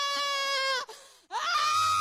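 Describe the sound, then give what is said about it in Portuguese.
A woman screams during an exorcism, a loud, shrill, strained cry that breaks off briefly and then resumes just as harsh. “Olha o grito de derrota do diabo.”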